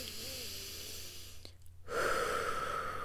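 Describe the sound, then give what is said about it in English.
Deep breathing done in through the nose and out through the mouth as a standing exercise facing the sun: after a brief quiet gap, a long airy breath swells loudly over a steady low hum. “take 6 deep breaths in through the nose and out through the mouth.”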